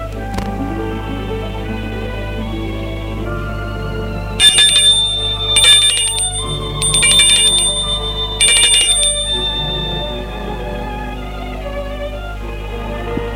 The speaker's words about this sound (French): Dans l'après-midi, elle va sonner chez Mathilde.